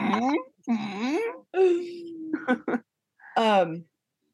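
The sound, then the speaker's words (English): A pet whines in a few drawn-out, wavering, moderately high cries separated by short gaps, with no talk over them. “Did you hear that? No. What is he doing? He's whining.”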